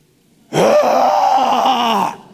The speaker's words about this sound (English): Would you just groan with me this morning? Sometimes it feels good.